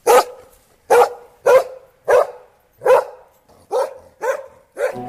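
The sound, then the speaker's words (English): A dog barks eight times in a loud, steady series of sharp, full barks with short gaps between them and no other sound. “Obviously, that is a dog.”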